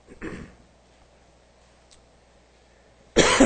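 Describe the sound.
A single short cough from a tightened throat comes early and stands alone, followed by near silence before a loud burst of noise cuts in at the very end.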